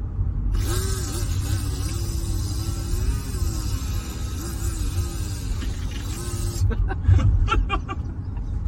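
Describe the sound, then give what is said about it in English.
Voice imitating a weed whacker, a continuous buzzing, wavering drone held for about six seconds before it breaks off into brief, scattered sounds. “I was digging in my bags of tricks here, and found out I can make a weed whacker sound. So here's the weed whacker.”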